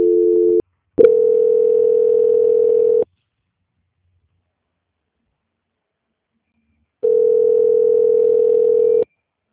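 Telephone line tone during a call transfer: a brief two-pitch tone, then a steady mid-pitched tone lasting about two seconds, a long silence, and a second identical two-second tone, with no voices.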